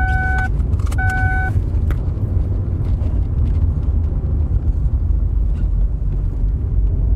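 Steady low engine rumble of a car driving along a quiet one-way town street, with a couple of short electronic beeps near the start, then unbroken road drone with no talk.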